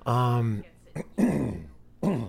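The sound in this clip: Throat clearing by someone resetting their voice: a voiced, humming rasp followed by a few short, rough bursts, moderately loud and with no words.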